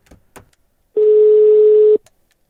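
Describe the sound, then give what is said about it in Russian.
Ringing tone of an outgoing telephone call: a single steady, mid-pitched tone lasting about one second, preceded by a couple of faint clicks. “Ладно, позвоним Егорке этому.”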